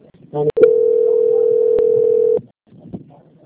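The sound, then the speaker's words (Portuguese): A telephone line tone plays while a customer-service call is transferred: sharp clicks, then one steady mid-pitched beep held for about two seconds before it cuts off abruptly. “peço que você aguarde só mais um minuto em linha, que eu vou transferir a sua ligação para o setor de qualidade”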